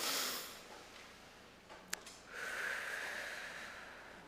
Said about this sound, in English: I would like us to respond with a big, deep breath in and out, an inhale and exhale. Let's practice together.